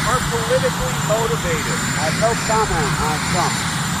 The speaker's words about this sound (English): You can hear the noise of Marine One, the presidential helicopter, in the background.